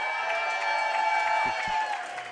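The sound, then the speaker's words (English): A large sellout crowd cheering and clapping at a live show, a continuous dense roar of whoops and applause with voices talking through it. “We got a big crowd, a sellout crowd here tonight.”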